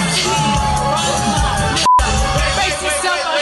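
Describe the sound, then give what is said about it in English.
An audience boos a singer, a loud, sustained mass of crowd voices with scattered shouts, briefly cut out midway before resuming. “Audience is booing.”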